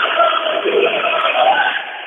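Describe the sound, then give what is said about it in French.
Factory workers sing together, celebrating the restart of production at their plant. Many voices blend into one steady, loud chorus that carries for about two seconds, then eases slightly toward the end. “ce sont les salariés de l'usine qui chantent, qui se félicitent d'avoir fait redémarrer les productions et qui tous ensemble, on va continuer.”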